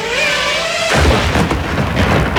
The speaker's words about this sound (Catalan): Aquest és el so del dron rus que s'ha dedicat a perseguir un venedor indefens del mercat de Kherson. L'home ha començat a fer voltes a la furgoneta per mirar d'amagar-se, però el pilot rus que guiava la parella a distància l'ha acabat atacant.